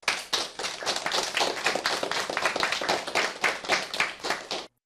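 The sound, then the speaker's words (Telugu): An audience claps for singers at a school performance, a dense, steady patter of many hands that holds at an even loudness and then stops abruptly. “చాలా అద్భుతంగా పాడారు కదా, వారికి చప్పట్లు కొడదామా?”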